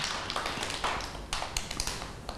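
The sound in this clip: Children clapping for a classmate in a group activity, a fairly faint, quick patter of uneven claps with a few sharper hits standing out.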